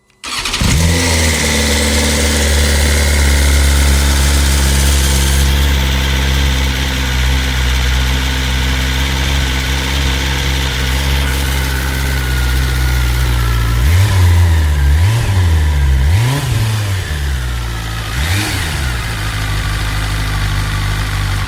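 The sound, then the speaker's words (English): Four-cylinder engine of a BMW S1000RR sport motorcycle runs throughout at a smooth, high-pitched idle, then gives several sharp revs that rise and fall in quick succession near the end before settling back, loud and alone. “Four cylinders, incredible power and precision, and a bike to own the racetrack on. That'll be the awe-inspiring S1000RR then.”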